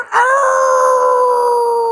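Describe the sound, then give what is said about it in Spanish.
A human voice imitating a werewolf's howl: a single long, sustained wailing tone that rises quickly at the start, then holds steady and slowly weakens, heard alone. “Ladró el hombre lobo con cara de bobo.”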